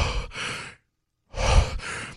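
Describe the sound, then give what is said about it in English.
Heavy, hoarse breathing meant as an alien creature. Two long breath cycles, each a drawn-out noisy rush in two parts, are separated by about half a second of silence. “But it's the alien from Aliens, Dave, and it's heavy breathing.”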